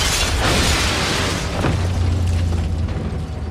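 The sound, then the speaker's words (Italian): Artillery shells explode near a radio station during a wartime bombardment with nearby buildings burning: a loud, broad, rumbling blast that holds for a few seconds and slowly fades, with no speech. “i proiettili continuarono a esplodere vicino alla stazione radio e gli edifici più vicini erano in fiamme”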